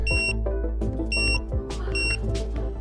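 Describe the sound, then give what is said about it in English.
A kitchen timer's beeper, set on its knob, sounds in three short bursts of high, steady tone over a loud, dense background. “I thought it turned off automatically. It's just a beeper. It's a beeper.”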